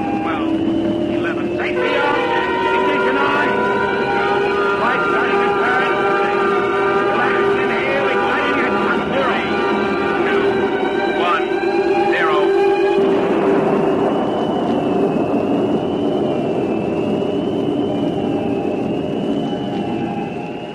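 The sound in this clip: A generator and pumps run with a loud, continuous mechanical drone of layered humming tones. A lower hum rises slightly early on, and the sound later settles into a smoother, steadier whine.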